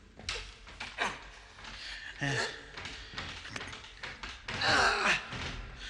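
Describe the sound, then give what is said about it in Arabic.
A box being opened inside a shipping container, heard as a series of knocks, thumps and clunks of varying loudness, with a louder, busier stretch near the end. “كده تمام، فتحت. بفتح اهو.”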